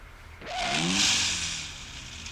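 A car in motion gives off a broad engine rush that swells to a loud peak and then eases off, with a brief tonal whine near the start, heard from inside the vehicle on a ride through the city.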